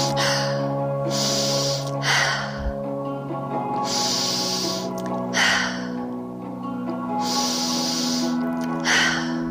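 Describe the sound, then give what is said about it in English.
Deep inhalations during a guided breathing exercise come as a few airy, breathy surges at a steady, repeating pace, set against a sustained low musical drone that continues throughout. “On to round number three. Inhaling, inhale.”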